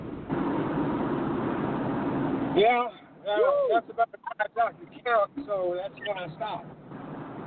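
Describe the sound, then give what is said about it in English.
Wind roars through the open window of a moving car, a dense, steady rushing noise that fills the opening seconds. A voice then talks over a lighter, continuing wind hiss. “George is driving. Okay, well, George, pull over, honey. Roll your window up.”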